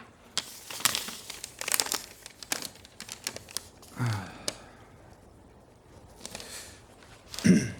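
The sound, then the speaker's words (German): Paper crinkling and rustling as a letter is unfolded during a courtroom hearing: scattered soft crackles and short crisp bursts at an uneven pace, fairly quiet, with a slightly fuller rustle near the end. “Moment, ich habe ein Schreiben erhalten.”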